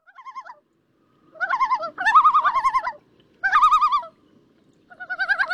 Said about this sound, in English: If you visit the Adirondacks, you know that's the call of the common loon.